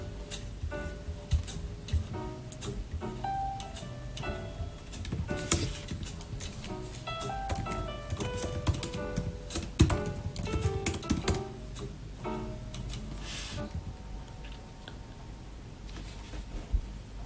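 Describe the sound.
Rapid, continuous clicking of computer keyboard keys while code is written, with irregular bursts of keystrokes running throughout.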